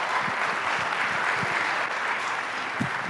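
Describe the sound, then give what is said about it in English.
A church audience applauds to welcome a speaker, with steady, even clapping that fills the whole stretch without any talk. “So can you just put your hands together and just welcome Damien as he comes out?”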